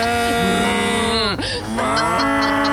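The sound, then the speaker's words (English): A human voice imitates a cow mooing while it is lifted in a harness beneath a helicopter. The call is one loud, sustained, low moo with a wavering pitch that dips briefly in the middle, then carries on. “they put that harness around a cow and a helicopter's lifting the cow and the cow is just like,”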